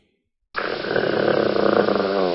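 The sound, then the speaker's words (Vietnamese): A low, gritty growl like a big motorcycle engine revving bursts in after a short silence and holds as a loud, continuous rattling rumble until the end. “Tiếng gừ rất rõ ràng, giống như tiếng động cơ phân khối lớn nẹt bô.”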